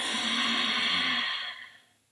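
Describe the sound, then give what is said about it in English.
A long exhale through the nose with a constricted throat, producing a rushing, hissing breath that stays steady for over a second, then fades out. “Inhale through the nose. Move the breath to the back of the throat. And when you exhale, it sounds like this.”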